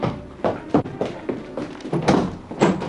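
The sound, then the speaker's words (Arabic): A door being opened in a radio drama, heard as several dull knocks and rattling thumps at uneven intervals over a low, steady background. “بس الدادة الظهر وصلت. لما افتح الباب.”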